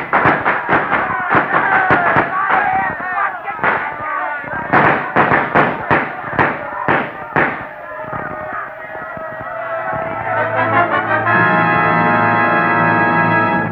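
Gunfire erupts during a street gang fight involving police: many loud, sharp shots crack in quick, uneven succession, then the firing stops and a sustained tonal drone takes over.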